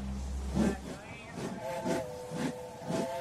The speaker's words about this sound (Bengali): Whistle বাজিয়ে গাড়ি ছেড়ে দিল।